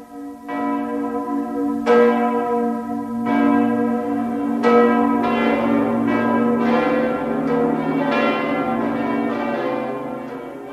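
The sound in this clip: Church bells in Europe ring in a slow, overlapping peal, with many loud strikes whose resonant tones hang and blend into a sustained ringing wash, with no voices.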